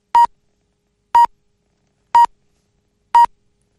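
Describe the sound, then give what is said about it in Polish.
Practice time signal beeps on Polish radio: four short, identical mid-pitched beeps spaced evenly about a second apart, clear and alone with no talk. “Spokojnie, spokojnie, sygnał czasu ćwiczebny. 5:30.”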